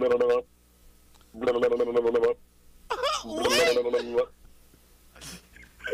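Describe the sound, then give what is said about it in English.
A person imitates an anime phone ringtone with their mouth: a few loud tonal sung phrases separated by short pauses, with a faint voice at the end. “What are you that doing with like your mouth? No, I think it's great. That's the One Piece. That's the phone call for One Piece.”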